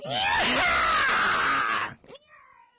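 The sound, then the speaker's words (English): A person lets out one loud, harsh, sustained yell lasting nearly two seconds that overloads the microphone, then breaks off into a brief, quieter trailing sound. “You can't yell like that on the radio. Well, you just, like, knocked all the sensors out.”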